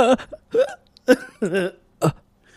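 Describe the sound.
A voice imitating hiccups produces five short, sharp voiced yelps in an uneven rhythm, each a quick gulping burst with a slight pitch bend, fairly loud with silent gaps between them.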